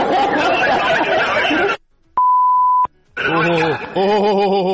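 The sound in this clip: A single steady mid-pitched censor beep masks a word, holding level for under a second. Talk runs before and after it.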